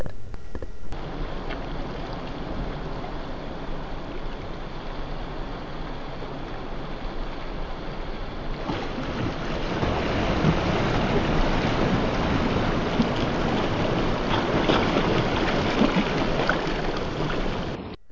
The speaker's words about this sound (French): mais il ne voit pas la vague arriver